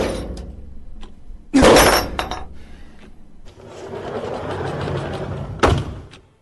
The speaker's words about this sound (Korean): 누군가 잠금 장치를 강제로 열고 있었다. 곧 문이 열렸다.